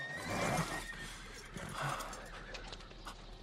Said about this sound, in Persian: اسبا نمیتونن گاری رو از وسط این گل رد کنن.